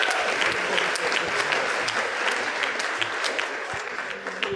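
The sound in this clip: Audience applause at a comedy roast: dense, steady clapping from a crowd that holds at an even level for several seconds, then thins slightly near the end.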